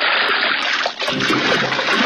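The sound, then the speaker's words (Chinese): Salted beef lung being rinsed under clean water: a steady, loud rush of running water with splashing and sloshing throughout, and no voices. “搓过盐的牛肺用清水冲洗后，还要在热水中焯洗，然后再在清水中像洗衣服那样使劲揉搓，将血管中的血水全部挤出来。”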